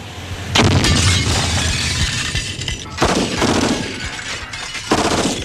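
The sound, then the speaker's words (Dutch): Blast and gunfire noise from a marine assault on an occupied provincial government building during a hostage crisis. Three heavy, rushing bursts are separated by scattered sharp cracks, all loud and with no voices. “Direct na de explosie en een korte schotenwisseling was alles afgelopen.”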